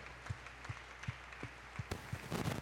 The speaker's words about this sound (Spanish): A ver si le va a aplaudir, vamos a hacerlo bien fuerte al Señor, ese aplauso.